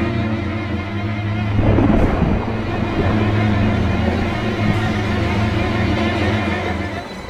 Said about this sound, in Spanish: Si es que esta maldita tormenta me da tregua.